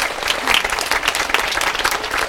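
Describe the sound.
Dense applause fills the space as women in the crowd clap for the Lord at a large religious gathering in Belarus. Rapid, overlapping claps blend into a steady wash of even loudness throughout, with no voices over it.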